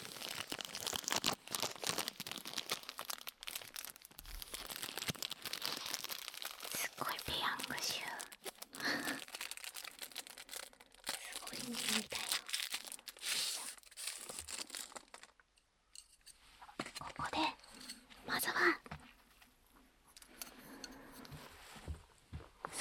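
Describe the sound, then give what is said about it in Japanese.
Disposable wooden chopsticks are unwrapped and opened with crisp crinkling and tearing sounds, close and detailed, alongside a soft whispering voice. “ここで割り箸を開けたいと思います。この割り箸もいい音ですね。”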